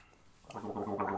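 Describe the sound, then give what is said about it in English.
Gargling of a creamy, caffeinated drink starts after a short quiet moment: a steady, throaty bubbling rattle that carries on to the end of the brief clip. “Alright, the gargle test.”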